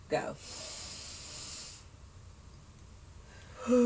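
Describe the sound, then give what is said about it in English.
A breathing exercise drawing air in through the nose and out through the mouth: a short sharp sniff, then a long airy hiss of breath that fades into quiet. “We're going to breathe in for 6 counts through the nose and then 6 counts out the mouth.”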